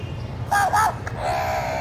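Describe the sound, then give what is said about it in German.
Crows caw amid city traffic in Kolkata: two harsh, nasal calls stand out over a steady low traffic rumble, followed by a fainter, drawn-out tonal call. “Wartete geduldig, bis der Verkehrslärm die ständig präsenten Krähentöne zum Beispiel gerade mal nicht übertönte”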